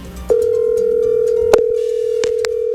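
Telephone tone on an outgoing call: a steady single-pitched tone begins just after the start and holds unbroken to the end, with a few faint clicks over it.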